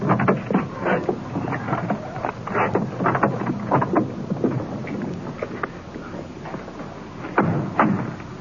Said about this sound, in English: Wind blowing across here tonight.